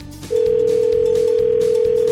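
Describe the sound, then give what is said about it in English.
A telephone dial tone, a loud, steady, unbroken hum that starts abruptly and holds over a low background rumble while a call is placed to a fishing charter captain on Lake Superior. “So let's dial up Captain John at Daybreak Charters of Marquette.”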